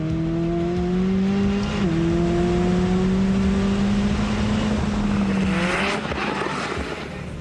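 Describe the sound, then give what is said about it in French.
A convertible sports car that does 0–100 in 2.9 seconds accelerates hard with the roof down. Its loud engine note climbs steadily in pitch, dips briefly at a gear change, then climbs again before another shift near the end. “le plaisir de rouler décapoté, c'est excellent, quoi. Ça amplifie le son du moteur,”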